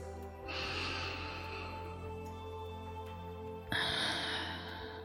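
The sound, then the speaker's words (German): Breath drawn in slowly through the nose, then released through the mouth in a stronger, breathy exhale, heard alone during a guided morning meditation. “Nimm einen Atemzug ein durch deine Nase und atme über den Mund wieder aus.”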